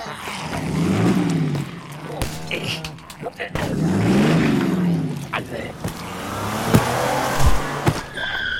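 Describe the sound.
A 4x4 car drives and skids, its engine surging up and down in pitch twice, with scraping tire noise and a few sharp knocks and bangs toward the end.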